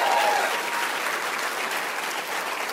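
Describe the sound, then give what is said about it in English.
Church audience applause, a dense, steady wash of clapping that begins with a brief whoop and eases slightly toward the end. “At every location, can we make some noise? Because we have an Evergreen campus.”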